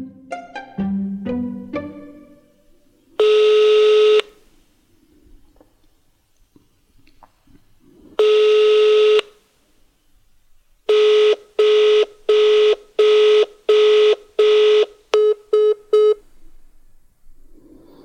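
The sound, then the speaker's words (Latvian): A telephone call rings out unanswered: two long, loud electronic ring tones come several seconds apart, then a rapid run of shorter beeps with quiet gaps. “Mēģinu vēlreiz sazvanīt savu mācītāju Mārku.”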